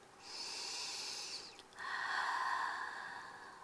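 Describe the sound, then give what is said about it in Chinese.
A deep breath is drawn in, then after a brief pause let out through the mouth. The two soft, airy sounds are faint and heard alone, with the exhale slightly longer and breathier. “再来一次，用力吸气，从嘴巴呼气。”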